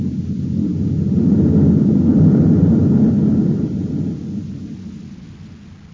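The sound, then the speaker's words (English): Forward rockets on a spaceship fire in a deep, continuous roar that holds steady, swells slightly in the middle, then eases off toward the end. “We'll come in with our nose rocket blasting. How do you know what part of the plant they're in? We'll destroy the air supply unit. That'll fix them wherever they are. All right, Dorch. Cut in those forward rockets.”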